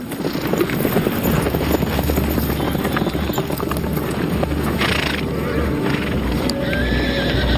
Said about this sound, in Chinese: 耐心与体力双双耗尽，太阳落山前，马群出现了。